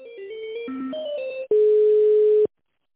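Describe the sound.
Telephone tones sound while a call is being transferred: a quick run of short electronic beeps at shifting pitches, then one loud steady tone lasting about a second before it cuts off into silence.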